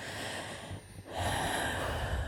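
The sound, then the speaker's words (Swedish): A deep breath is drawn in as a soft rush of air that swells after a short dip midway through. “vi tar ett djupt andetag”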